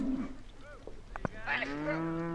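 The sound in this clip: Cattle lowing on a cattle drive at the Black Market Farm near Centennial in southern Wyoming: a few deep, harmonic moos, the last one long and sustained, over a steady low background.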